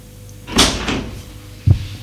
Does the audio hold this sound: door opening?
yes